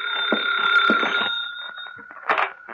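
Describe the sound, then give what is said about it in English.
A telephone rings in an office with a sustained, bright electric bell tone that carries on for most of the moment, interrupted by a few short clattering knocks. “That's the phone ringing in your office”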